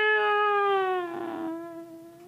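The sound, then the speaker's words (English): A human voice imitates a cat's meow, one long, drawn-out nasal tone that sags slightly in pitch and fades away. “Them other cats stirred a little, and one or two of them sort of meowed. Meow,”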